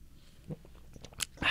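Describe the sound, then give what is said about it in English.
Two radio hosts sipping Tim Hortons coffee make faint slurping mouth sounds, a few soft brief sips that build to a louder, noisier slurp at the end. “Do you all enjoy us both sipping our drinks at the same time out there? Isn't that good? You like that?”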